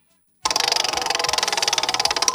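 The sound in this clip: A prize wheel is spun, and its pointer makes a fast, even rattle of clicks. The ticking starts abruptly after a brief silence and runs loud and steady.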